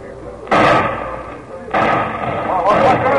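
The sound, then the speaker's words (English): Gunshots ring out in a town, three heavy, loud bangs, each followed by a long, rumbling decay that overlaps the next. “Hey, what's going on here? Shots.”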